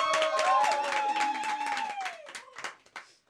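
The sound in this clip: Applause with voices over it, loud and dense at first, then thinning into scattered claps that taper off over about three seconds.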